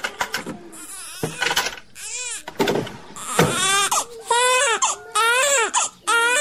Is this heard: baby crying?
yes